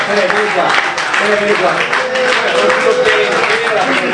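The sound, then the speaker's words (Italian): Applause for a musician introduced at a local gathering before he plays two songs: dense, steady clapping with voices talking over it throughout. “Un applauso a Pelé.”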